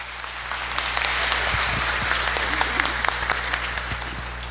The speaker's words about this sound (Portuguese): Mas antes disso, batendo palma em nome do poder público a vocês.